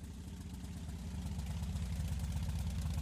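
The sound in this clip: A motorcycle engine in very good condition idles steadily, giving a low, throbbing rumble with fast, even pulses at a constant, moderate loudness throughout.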